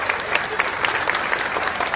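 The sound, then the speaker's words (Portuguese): A crowd gives strong applause for the military police officers who work in Pacajus, Ceará, at a public event. The clapping is steady, dense and continuous throughout. “Aqui eu também queria te pedir Uma forte salva de palmas a todos os policiais militares aqui que trabalham em Pacaju.”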